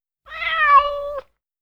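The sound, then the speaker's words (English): A cat gives a single drawn-out meow, a clear mid-pitched tonal call lasting about a second, heard alone with no talk. “Meow. Cat.”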